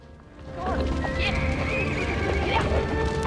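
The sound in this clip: Horses neigh and their hooves clip-clop as they are let out through opened doors. Several shrill whinnies sound over a steady clatter of hooves and rough background noise.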